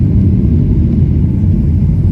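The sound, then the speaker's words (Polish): A JetBlue airliner taking off at Boston produces a loud, steady, low engine rumble that continues without a break. “Startuje JetBlue.”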